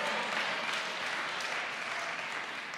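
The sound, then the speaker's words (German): An audience at a church gathering applauds the interpreter, a dense, even patter of many clapping hands that is fairly quiet and lasts through the whole clip without talk. “an Karin, gibt ihr auch einen Applaus”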